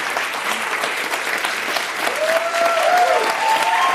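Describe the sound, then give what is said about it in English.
A standing ovation from an audience for Stacey Abrams, a candidate for governor of Georgia: thick, continuous applause that swells a little louder through the second half. “The audience is giving Stacey a standing ovation.”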